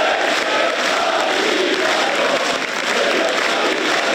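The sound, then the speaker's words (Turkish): Applause and crowd noise as Turkey's President Erdoğan enters the hall for an AK Party group meeting, a dense, even wash of clapping that holds at the same loud level for four seconds. “Cumhurbaşkanı Erdoğan alkışlarla girdi salona.”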